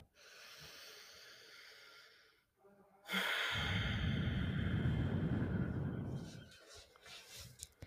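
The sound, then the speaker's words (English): A slow, deep breath drawn in and let out: a soft, hissy inhale of about two seconds, a brief pause, then a longer, louder, rushing exhale lasting over three seconds before fading. “let's take in a deep breath.”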